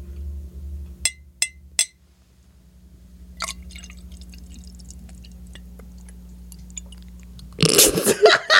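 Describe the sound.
Three sharp taps in an ASMR recording come in quick succession early on, followed by faint scattered clicks and then a sudden burst of louder, dense noise at the very end.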